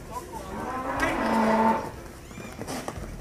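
A bull bellows during a demonstration with a row of students in Nuevo León, Mexico. One long, low moo swells and then fades away.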